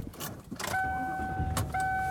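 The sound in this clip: Inside a car while driving home, a low rumbling road noise carries a few soft whooshing bursts and a faint, steady electronic tone that cuts off briefly and then returns.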